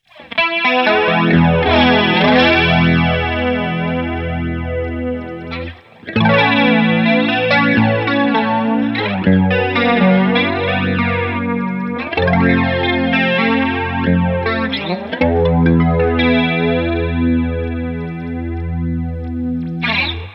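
Electric Mistress flanger pedal effect swirls over sustained chords, a sweeping comb-like whoosh moving through each chord change. Playing is loud and continuous, with one brief dip before the chords resume.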